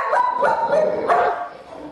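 Dogs bark at home, a pit bull and another dog: several sharp, loud barks in quick succession, with a final bark at the end.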